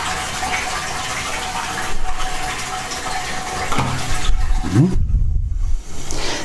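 Running water rinsing something, a steady rushing, splashing stream that continues throughout, with a deeper gurgling burst near the end and no talk.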